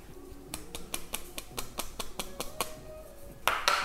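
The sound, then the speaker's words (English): Baking powder is added to peanut cookie dough in a bowl. Many light, sharp taps and clicks come in a steady quick rhythm, ending in a brief louder rattle. “And I'm also gonna add a bit of baking powder. Adding roughly 5 grams here, which is almost a teaspoon.”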